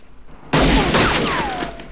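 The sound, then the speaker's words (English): Gunshots exchanged at night beside a wooden fence: a sudden, loud blast bursts in and gives way to a sustained, crackling roar that slowly fades. “Harry fires, hitting the wooden fence in front of Scorpio, who returns fire and scuttles away.”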